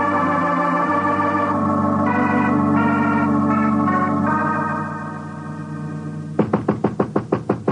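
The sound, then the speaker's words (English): Knocking on a door: a quick series of several sharp, hard raps at the end, following a long sustained musical chord that fades down just before them. “Sorry, I knocked”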